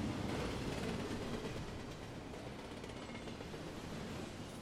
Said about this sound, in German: Dampflokomotive mit roten Rädern fährt über eine Brücke. Das massive Gewicht der eisernen Lok aus Kruppstahl bringt die Balken unter den Schienen zum Biegen.